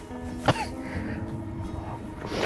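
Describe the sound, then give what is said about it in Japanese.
A sneeze: one short, sharp burst that stands out briefly above steady background noise. “えらいくしゃみ出ちゃいましたね”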